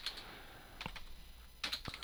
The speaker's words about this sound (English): There you go. That's your whole report typed out.